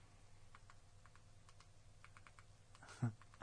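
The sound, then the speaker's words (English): Soft typing on a computer keyboard: many light, irregular key clicks over a low background hum, with a slightly louder bump near the end. “You're going to sit while I type this.”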